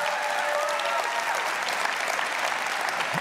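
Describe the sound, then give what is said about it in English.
An audience applauds steadily throughout, a dense, even wash of many hands clapping at a fairly loud level with no pauses. “You want the truth this morning? Give them a hand again if you would.”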